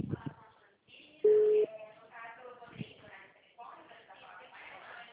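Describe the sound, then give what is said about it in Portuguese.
A single short, steady electronic beep sounds as a telephone line goes on hold. It is loud and clear against voices talking over the line before and after. “eu acho que é o telefone dela que está entrando em espera”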